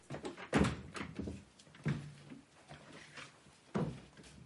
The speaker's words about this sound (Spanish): Camina tras ella y va cerrando puertas a su paso para acorralarla en el vestíbulo.